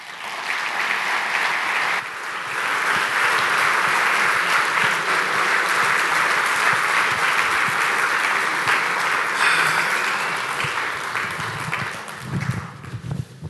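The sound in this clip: Sustained audience applause welcoming a speaker at a seminar evening in Steamboat, dense and even clapping for about thirteen seconds that thins out near the end.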